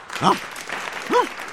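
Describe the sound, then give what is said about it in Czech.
Animals applauding furiously at a garden gathering in a children's tale, a steady patter of clapping with two brief tonal calls standing out over it. “Zvířátka zuřivě tleskala.”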